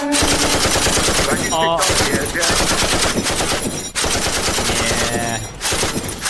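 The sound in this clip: Machine gun firing a full clip: loud, continuous rapid-fire bursts that run for several seconds, broken by a few short pauses, with a dense, harsh rattle throughout.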